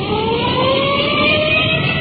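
A police patrol car's siren on a code 3 emergency run gives a loud, steady wailing tone over heavy engine rumble and road noise throughout.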